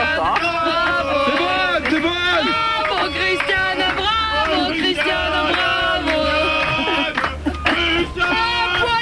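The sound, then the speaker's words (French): A studio audience cheers loudly in a radio studio, with many voices whooping and calling out continuously in a warm, excited din. “Là, le public est debout, il y a de la hola dans l'air, c'est très très chaud. Écoutez le public, je laisse vivre le public.”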